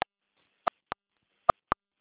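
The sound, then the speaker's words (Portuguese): A mobile phone keypad gives five short electronic beeps as its number buttons are pressed. The faint beeps come in an uneven rhythm against silence. “Tira o rosto do celular, está apertando os números. É. Alô? Fran? Agora parou de apertar o botão.”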